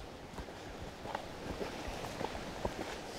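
Soft footsteps on a woodland path in Liselund palace park, entering denser forest; the light, irregular steps stay faint against a quiet outdoor background, with no voices.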